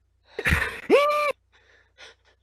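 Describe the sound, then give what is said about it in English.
A sharp, gasping intake of breath: a breathy rush that turns into a short voiced catch lasting under a second, then trails into a few faint, soft breaths. “Take a breath.”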